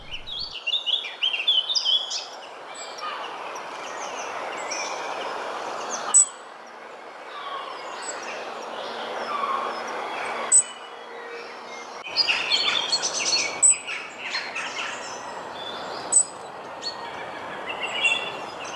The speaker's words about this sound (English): I'm hearing some birds in the background as we're talking, so I will ask you to maybe have a go at identifying some of them